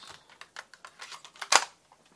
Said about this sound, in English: I'll just put a new tape in.